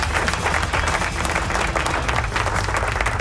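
Dense, continuous applause from a crowd, a steady hiss of many hands clapping at once, holding an even loudness from start to finish with no talk over it.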